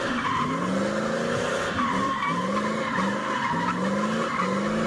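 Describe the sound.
Car tires skid and squeal as a car does donuts, a steady loud screech with wavering tones that repeatedly rise and dip, under a constant engine roar.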